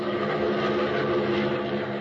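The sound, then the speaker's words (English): A small, swift, oddly shaped plane's engine drones steadily with the throttle open, a dense, even roar that holds at one level throughout. “Opening the throttle, Batman sends his swift, oddly shaped plane zooming north”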